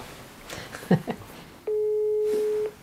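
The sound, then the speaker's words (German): A telephone call being placed: one steady electronic line tone lasts about a second, alone after brief faint voices at the start. “Ich muss, glaube ich, Lenard anrufen und ihn fragen. Mache ich gerade.”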